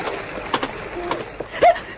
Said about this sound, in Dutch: Schrik maar niet. Ik schopte een steentje in het water.